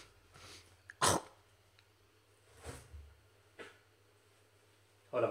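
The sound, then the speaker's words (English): Throat clearing of phlegm: a few rough, breathy bursts, the first and last loudest, separated by quiet pauses with no talking. “A bit of phlegm in the throat.”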